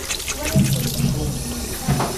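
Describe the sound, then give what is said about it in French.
Tap water runs steadily into a sink as soap foam is rinsed off hands, a constant hiss of flowing water broken by a few louder splashing surges. “On va mettre encore un petit peu sous l'eau. Tout enlever la mousse.”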